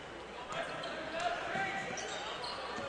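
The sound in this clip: A basketball is dribbled during a college game between Dort College and Concordia, with soft repeated bounces on the court under a commentator's voice and steady crowd noise.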